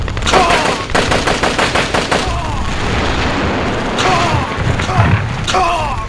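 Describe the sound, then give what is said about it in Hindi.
Gunfire from a tank shooting at another tank: a rapid train of loud, sharp shots over the first two seconds, followed by a dense, sustained rumble of firing and blasts. “वो tank निशाने पर आ गए हैं sir. Fire.”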